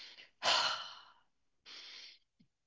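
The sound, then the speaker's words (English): Two deliberate breathy exhales, released intentionally to let go of energy: the first strong and drawn out, fading gradually, the second shorter and softer after a pause. “You intentionally exhale to release accumulated energy, like”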